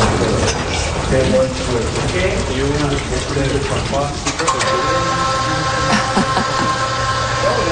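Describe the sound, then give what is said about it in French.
Water runs down a wall in a steady, loud rush during the wall's monthly maintenance, while the aerial work platform adds a sustained mechanical whine through the second half. “on entend de l'eau qui coule, ouais. On entend un bruit mécanique aussi. Oui, alors c'est la nacelle.”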